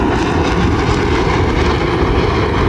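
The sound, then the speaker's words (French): Dassault Rafale fighter jets fly past with a loud, dense roar that stays steady and unbroken throughout, with no voices. “Et voilà les rafales qui arrivent environ 5 minutes plus tard à notre droite, côté Laval, avec leur nez pointu. Attention aux oreilles.”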